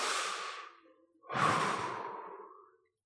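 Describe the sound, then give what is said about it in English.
A group takes a deep breath together, producing two loud, airy breath sounds, the second a longer sigh that slowly fades out. “everybody right now together with me, take a nice big deep breath.”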